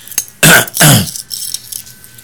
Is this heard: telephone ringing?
no